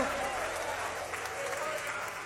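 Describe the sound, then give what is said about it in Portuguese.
A church audience applauds in praise to God, giving a steady wash of clapping that stays fairly soft and even throughout the short stretch. “Mais forte aplauso, por favor. Palmas de glória a Deus, igreja.”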